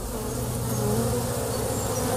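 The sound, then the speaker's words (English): Honeybees hum around the hives of a thirteen-hive bee yard, forming a loud, continuous, even drone of many wings with no voices. “Okay, we're heading out to my bee yard. I've got 13 hives sitting in it right now.”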